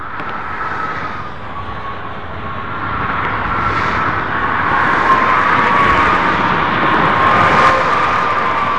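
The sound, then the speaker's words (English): Heavy traffic from semi trucks driving on a highway: a broad, steady roar with a faint whine, swelling louder after the first few seconds and staying strong to the end. “Loud over there, though. Well, it was like 18 semis driving.”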